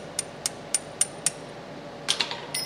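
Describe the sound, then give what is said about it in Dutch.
Sharp metallic taps on a bench vise as a magnetic pendant housing is worked open: five evenly spaced knocks, then a quicker cluster of several more, fairly faint over a steady low hum. “Na wat tikwerk op een bankschroef krijgt een collega van Maarten de biostabiel open.”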